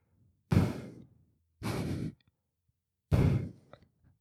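A person imitates their own heavy breathing while asleep: three loud, breathy, drawn-out exhalations, each about half a second long, separated by short pauses, with no talk.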